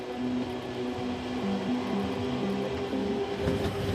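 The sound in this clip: A train rolls steadily along the track as it climbs through mountain forest, giving a continuous low rumble with a faint hum and no pauses. There is no talking.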